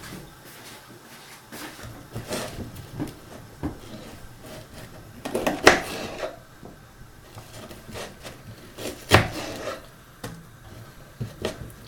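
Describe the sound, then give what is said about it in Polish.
An onion is chopped with a knife for mushrooms in a pizza recipe: sparse, faint wooden knocks of the blade on a board, with a few sharper strikes standing out against a quiet background. “I teraz posiekamy cebulkę, którą później dodam do pieczarek.”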